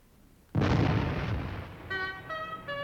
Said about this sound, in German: Lasst den Kanonendonner ihn erwecken.